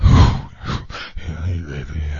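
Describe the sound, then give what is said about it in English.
A voice mimics the heavy breathing of an obscene phone caller, a few loud, heaving, breathy rasps and groaning exhales in quick succession. “That's what he kind of sounded like with that breathing.”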